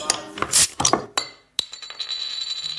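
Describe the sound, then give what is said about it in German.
A beer bottle's crown cap is opened: a little rustling and handling, then two sharp metallic clicks, followed by a thin, high ringing that lingers faintly. “Das Öffnen einer Flasche, am liebsten einer Bierflasche. Dieses kleine Ding da oben drauf nennt sich Kronkorken und der hat es richtig in sich.”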